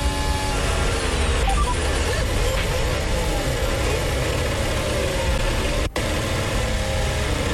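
Onboard engine roar from Pierre Gasly's Formula 1 car at the Miami Grand Prix: a steady, loud, continuous drone that holds nearly unchanged, broken only by one brief cut near the end.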